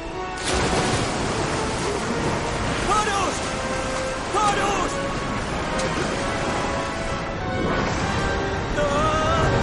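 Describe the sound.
Roaring, rushing water of a huge waterfall as figures plunge into it: a loud, dense, continuous wash of noise that stays steady throughout, with a few surging swells.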